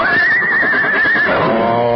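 A horse being saddled after dark while tied beneath an old mesquite tree lets out a loud, sustained whinny. A high, wavering tone holds steady, then drops into a lower, rougher neigh.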